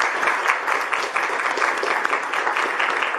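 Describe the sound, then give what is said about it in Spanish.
Audience applause for two speakers at the close of a faith and reason conference, a steady, dense patter of many hands clapping at moderate loudness without pause. “pido un aplauso para ambos ponentes”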